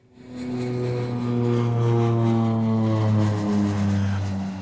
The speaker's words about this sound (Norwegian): Og vi lander i Saudi-Arabia.